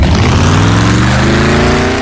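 A car engine revs hard on INA Classmaster fuel, a loud, continuous roar whose pitch climbs slowly throughout.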